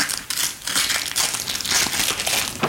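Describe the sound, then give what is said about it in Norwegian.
Packaging crinkles as a large cylindrical parcel holding an art print is unwrapped: steady rustling and crumpling with a few sharper crackles. “Etter å ha vunnet I et lotteri åpner hun nå et av den anonyme gatekunstneren Pøbel sine nyeste trykk.”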